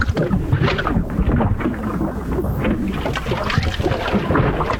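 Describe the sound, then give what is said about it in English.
Gurgling from a clogged drain: a loud, continuous, churning rush of bubbling water and air that stays steady throughout, with no voices. “Uh-oh, is that another clogged drain?”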